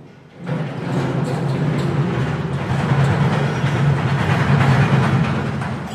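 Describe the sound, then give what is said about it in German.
A crane grab moves through the slag bunker of a waste incinerator, making a loud, steady mechanical rumble. It starts abruptly and continues at an even level with broad noisy texture. “der fährt jetzt, macht jetzt noch voll den Greifer, dann fährt er ihn zur Mitte, gibt den auf und dann wandert die Schlacke rüber zu unserer Aufbereitung.”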